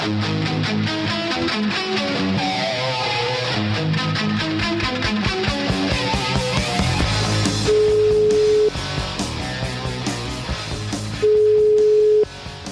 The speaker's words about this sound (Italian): Aspetta un attimo, aspetta, che voglio fare una telefonata, aspetta.